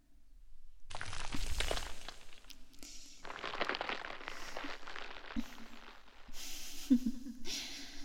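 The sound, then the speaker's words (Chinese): Breath blows away flimsy oat husks before they can be ground: several bursts of hissing, gusty air, some sharp and some drawn out, separated by brief quiet gaps. “这是什么破质量的燕麦壳呀，老师还没有开始碾就被老师的呼吸吹走了。”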